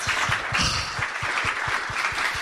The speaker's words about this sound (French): On peut applaudir Mélissa ? Quelle belle chute.